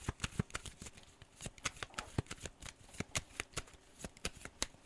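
Tarot cards being shuffled and drawn: a dense run of many quick, crisp card riffles and flicks in an uneven rhythm, fairly quiet and with no voices.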